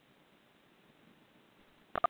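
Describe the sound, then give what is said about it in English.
Two brief keypad tones from pressing 1 on a phone during a call-in line. Faint line hiss runs quietly underneath, and both tones come close together near the end. “please press 1 on your phone if you would like to have a comment, if you have a word, if you have a question. And I'm going to press 1.”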